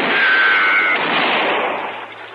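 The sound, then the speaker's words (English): A gunshot fired at a marshal during a western shootout, a loud blast with a brief whining tone, trailing off into a long rumbling decay. “Ain't you gonna shoot back, Marshal?”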